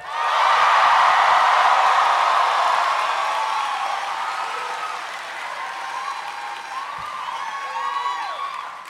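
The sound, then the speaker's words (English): A live audience cheers, claps and whoops in a loud, dense wash of crowd noise. It starts at full strength and gradually dies down. “Travis fucking waited until Justin's cheer died down”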